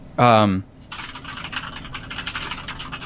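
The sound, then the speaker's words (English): Fast typing on a loud computer keyboard, a rapid, continuous clatter of many sharp key clicks, follows a short vocal sound at the start. “oh my God, we have to keep your typing in. I've never heard anybody type that fast. I just have a loud keyboard.”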